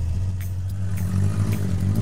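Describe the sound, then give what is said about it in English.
A car engine, restarted and revved gently, holds a low, steady hum with a mild rise in revs and a faint clatter over the rumble. “Restart the engine. Give it some gas, but gently this time. Imagine it's a small animal. You're standing on its belly until it starts to growl.”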